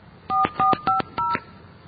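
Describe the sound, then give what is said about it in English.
Touch-tone dialling of a phone number to reach a company line: four short, loud dual-pitched beeps in a quick, even sequence, each separated by a brief gap, with no voices. “So I want to call that number, and you can hear for yourself what they say”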